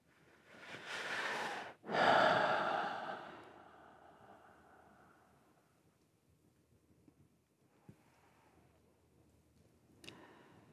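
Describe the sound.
Slow, deliberate breathing during a relaxation exercise: one long breath drawn in and then a drawn-out exhale, fading into near silence broken by a few faint ticks.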